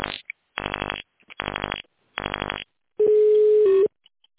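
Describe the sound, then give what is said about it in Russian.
Telephone keypad dialing tones on a call to a bank's automated line asking for an extension: three short, buzzy tones in a row, then a longer steady tone, with no talk. “Для соединения с абонентом наберите его внутренний номер.”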